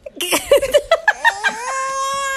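A baby cries in a run of short, high sobbing bursts that merge into a longer, sustained wail.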